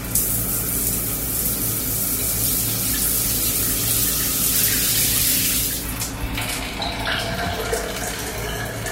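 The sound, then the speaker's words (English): A shower runs with a steady, full hiss of spraying water that shifts in tone partway through, with no voices. “Wait a minute. It's a shower.”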